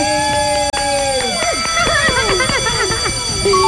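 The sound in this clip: Electronic ringing of an outgoing telephone call, steady held tones that give way to a quick warbling run of short notes, loud and continuous with no talk.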